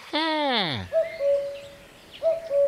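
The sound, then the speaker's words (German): A cuckoo calls in a spring woodland, giving two clear two-note calls, each a short higher note dropping to a longer, lower one, with a gap between them. “der Kuckuck, genau. Wenn man die ersten Kuckucksrufe hört, dann bekommt man auch schon die ersten Frühlingsgefühle.”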